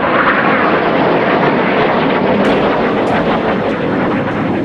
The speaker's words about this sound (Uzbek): Davlat to'ntarishiga urinayotganlarning nazoratidagi F-16 samolyotlari xalqni vahimaga solish maqsadida Ankara samolarida past darajada parvoz qila boshladi.